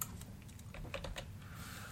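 Someone types a search term on a computer keyboard, a few quiet, crisp key clicks bunched near the middle over a faint steady background hum.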